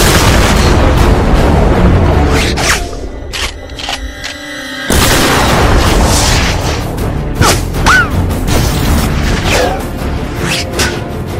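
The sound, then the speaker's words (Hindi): Heavy artillery firing explosive shells at a target in range: loud booming blasts with whooshing noise, a brief quieter stretch in the middle, then more rumbling blasts. “Target range में है। धमाका खेज गोले load हो रहे हैं। Fire कर।”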